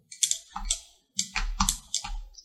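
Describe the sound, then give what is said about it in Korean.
The T key and other keys on a computer keyboard are pressed during 3D modelling work, giving several quiet, crisp clicks in two short clusters separated by a brief pause. “자, 그리고 다시 T키를 누르면”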